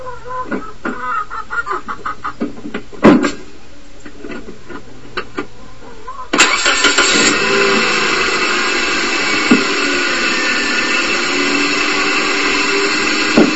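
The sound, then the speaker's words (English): A car engine starts with a jump-start boost pack, heard in the engine bay: scattered clicks, then the engine catches abruptly with no hesitation and settles into a steady, loud running roar. “I'm going to start the car, and you guys can hear right in the engine bay of the sound of the car starting. You'll see that there's just no hesitation. This little boost pack just starts this car right up.”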